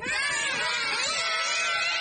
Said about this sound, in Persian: داد نزنید باسه، پسرها دارن میترسن.